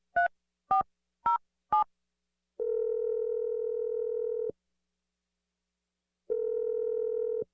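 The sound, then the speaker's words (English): Telephone dialing: four short keypad beeps, then a long steady tone, a silent pause, and the same steady tone again, with no voices. “I'm just going to dial his number if you're ready.”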